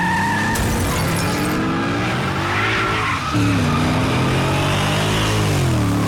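A car accelerates hard, its engine roaring loudly while tires skid and squeal; the engine note dips briefly midway, then surges again at a higher, steadier pitch.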